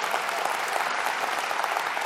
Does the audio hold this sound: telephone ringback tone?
no